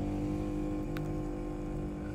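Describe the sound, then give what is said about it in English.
A motorcycle with a very loud muffler goes by, heard as a steady, heavy engine rumble that holds at an even loudness through the whole short clip. “not the motorcycle that's going by with a very loud muffler today”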